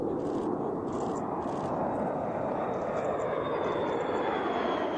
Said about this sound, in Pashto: سویلي کوریا د پاسه بی 52 بمبار الوتکې الوزولې دي